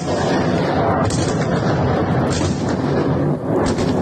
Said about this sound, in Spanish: Sonido de la ofensiva sobre Kiev, que las autoridades han definido como masiva.